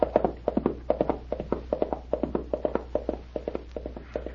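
A ridden pony trots with a steady, crisp clip-clop of hooves, many even beats in a quick regular rhythm at moderate loudness, with no voices.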